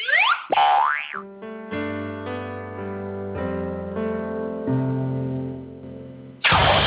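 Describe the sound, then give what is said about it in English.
Cartoon sound effect: springy boing tones swoop up and down at the start, then a run of wobbling, buzzy notes steps along, closing with a sudden loud burst of noise. “I'm hard on crime and I approve this cartoon bonus sound.”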